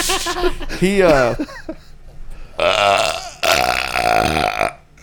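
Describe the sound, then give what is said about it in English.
A loud, drawn-out burp with a rolling, gurgling pitch, set among voices talking. “Did Mason tell you that you burp on the podcast?”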